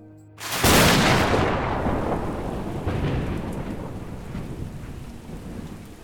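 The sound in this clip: A thunderstorm and gale hit a sailing boat at sea on the way to South Georgia, amid freezing spray. A loud thunder crack rolls into a long, fading rumble over steady, hissing rain.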